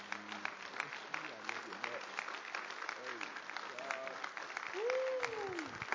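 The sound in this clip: An audience at a religious gathering applauds steadily to welcome a speaker, a dense, even clapping that holds throughout while voices sound over it.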